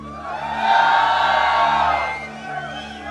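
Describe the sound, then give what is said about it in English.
An audience shouts and cheers, a mass of whoops and yells that swells quickly, holds loud for about a second, then fades back down. “Thank you for your enthusiasm. Thank you for that big shouting.”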